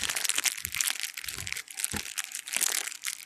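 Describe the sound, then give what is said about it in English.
Cellophane crinkles as the wrapper is peeled off a Macanudo M Dark Rum cigar, a dense, continuous crackle with brief lulls that lasts the whole clip. “I need to get mine out of cellophane.”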